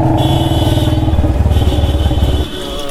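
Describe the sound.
A motor vehicle arrives and pulls up, its engine giving a loud, steady, rhythmically pulsing rumble before the level drops suddenly near the end as it settles.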